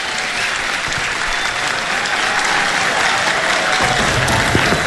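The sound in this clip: An audience claps, dense and steady applause holding at an even, loud level throughout with no one speaking over it.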